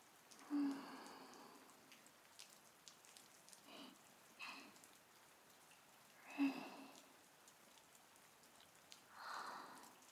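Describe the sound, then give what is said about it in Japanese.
Rain falls as a soft, faint patter, a low steady hiss of drops broken by a few slightly louder swells, with no voices over it. “雨の音、心地いい。”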